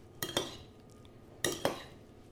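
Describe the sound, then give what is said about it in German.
A spoon clinks against a bowl while stirring a tomato, onion and garlic mixture with a tablespoon of oil, giving four sharp metallic clinks in two quick pairs with quiet scraping between. “wir dann quasi einmal diese Tomaten-Zwiebel-Knoblauch-Mischung in der Schüssel haben. Und da kommt jetzt eben dieser eine Esslöffel Öl dazu. Dann rührt ihr das alles schön um,”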